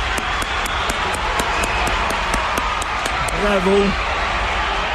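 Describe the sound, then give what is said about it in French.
A studio audience applauds health-care union members and rises for a standing ovation. Sharp, rhythmic clapping keeps a steady beat over a constant crowd rumble, and a brief voice rises near the end. “On applaudit Nancy Bédard encore et tous les syndicalistes du travail de la santé. Oui. Bravo. Debout tout le monde. Debout.”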